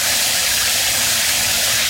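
Running shower water pours in a loud, steady, unbroken hiss of spray, with no change in level and no voices.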